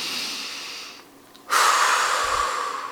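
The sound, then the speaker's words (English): A deep breath heard alone: soft breathy noise fades into a brief near-silence, then a loud, rushing airy breath swells in and holds steady to the end. “Settle in, get comfortable, take a deep breath.”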